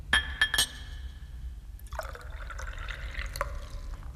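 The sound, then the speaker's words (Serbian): Whisky being poured into a glass: a few bright glass clinks come first, then a steady trickle of liquid pouring with another light clink partway through, all fairly quiet. “Sipaću ti viski.”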